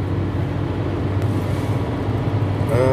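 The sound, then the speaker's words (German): Steady low rumble of engine and road noise heard from inside a moving car, an even drone with no clear changes. “Sorry, ich fahre, deshalb klingt das gerade hier so ein bisschen abgehackt.”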